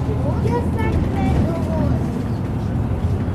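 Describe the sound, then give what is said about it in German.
Express bus in motion, passing a church built of fieldstone with a wooden tower, with a steady low rumble of engine and road noise running under people talking. “Ist auch ein Expressbus. Wir fahren gerade an der Kirche vorbei, ein riesen mit, mit Feldsteinen gebaut und einem Holzturm.”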